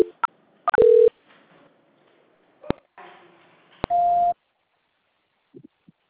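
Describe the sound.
Telephone line tones during a call transfer: sharp clicks and short electronic beeps, a couple of steady held tones, then faint blips near the end.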